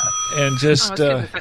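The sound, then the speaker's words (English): A bell ringing as a steady, high sustained tone that holds under a person talking throughout. “She thought the bell was the door.”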